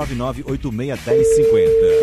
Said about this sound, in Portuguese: Seu telefone vai tocar agora, já chamando.